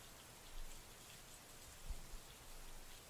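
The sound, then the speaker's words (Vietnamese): Rain pours down outdoors in a sudden thunderstorm onto smouldering paper votive horses and elephants. It makes a faint, steady hiss with a few soft low thumps. “Mưa trút xuống đám ngựa voi giấy đang cháy dở.”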